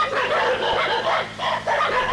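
Dogs barking at the east side of a dwelling while a wolf pack raids the sheep; loud, overlapping barks come in several quick bursts with brief dips between, and no voices.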